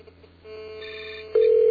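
A telephone rings as a caller dials in, a steady electronic tone that jumps to a louder, piercing ring in the final moments.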